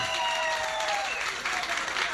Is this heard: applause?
yes